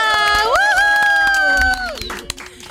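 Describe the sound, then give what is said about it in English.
A studio audience applauding and cheering to welcome a guest, loud and sustained, then cutting off sharply after under two seconds and leaving only a few scattered claps. “Geef haar een groot applaus.”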